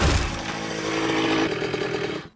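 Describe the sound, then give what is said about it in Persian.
A motorcycle engine arriving, a steady buzzing drone with a low, rough hum that holds evenly, then drops away sharply at the very end. “اومدم خدمتتون با موتور.”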